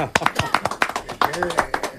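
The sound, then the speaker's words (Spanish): Applause for a young choir, with sharp claps in an uneven rhythm under a speaking voice. “Vamos muy a hacerle un aplauso a nosotros.”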